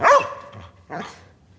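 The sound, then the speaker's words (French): A dog brought onto a film set barks twice: a sharp, loud first bark, then a second, slightly softer bark just under a second later, with no talk around them. “J'ai fait venir ce chien pour te montrer qu'il joue mieux que toi. Allez, ça tourne.”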